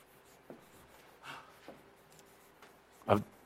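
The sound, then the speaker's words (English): Faint scratching of handwriting, a few short, quiet pen strokes spread out with soft gaps between them. “I'm writing fast because you're not patient.”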